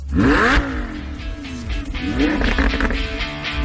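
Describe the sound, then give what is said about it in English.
A Ferrari engine revs hard on a race track, a loud, continuous roar whose pitch climbs and drops repeatedly as the car accelerates and shifts. “Listeners from all over the country are getting up close and personal with dozens of Ferraris.”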